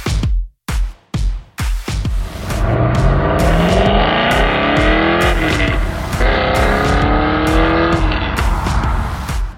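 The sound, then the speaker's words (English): A 2004 Cadillac CTS-V engine gives a few short, sharp revs, then settles into a loud, sustained roar that climbs in pitch as the car accelerates, with no talking. “in his 2004 Cadillac CTS-V, sounding fantastic.”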